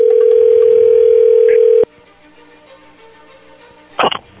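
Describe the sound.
A steady, loud telephone dial tone sounds as a call is placed, holding for almost two seconds before cutting off abruptly. Faint line hiss follows, then a short burst of sound near the end.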